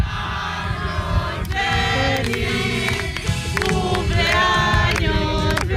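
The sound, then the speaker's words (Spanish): Group of people singing Happy Birthday together on a Spanish radio show, a sustained harmonic sung melody that stays steady and fairly loud for the whole stretch. “Oye, pues cantarle el cumpleaños a toda España, vamos a cantarle. Venga, venga, vamos a cantar.”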